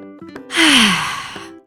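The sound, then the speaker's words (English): A single long, deep breath exhaled as a voiced sigh with a falling tone, taken while getting children ready for outdoor play. It starts with a soft intake and swells to a loud, breathy exhale before fading. “We're going to take 3 deep breaths.”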